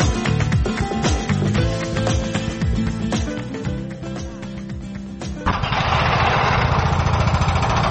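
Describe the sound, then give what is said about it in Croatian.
Heavy construction machines break up the remaining concrete walls and structure of a demolished sports hall in Doboj. A loud, dense engine roar runs throughout with crunching and grinding, settling into a steadier roar near the end. “Radnici koriste teške građevinske mašine za razbijanje ostataka betonskih zidova i konstrukcije bivše sportske dvorane u Doboju.”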